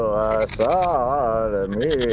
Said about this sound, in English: Will you pipe down? Holy smokes, we're up to our neck in goats. What are we gonna do with 3 goats